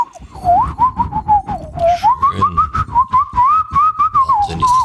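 A person whistles an imitation of bird song: a clear, mid-pitched, wavering melody of short repeated phrases that rise and dip, fairly loud and continuous.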